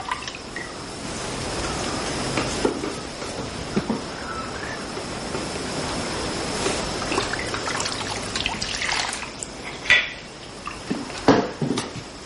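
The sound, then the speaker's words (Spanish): A wet rag is wrung and wiped over a water basin while washing the body: gentle trickles, drips and splashes, with a few light clinks against the basin, steady and fairly quiet throughout. “Con un trapo mojado en agua, Paula se limpia las axilas, los pechos y sus partes íntimas.”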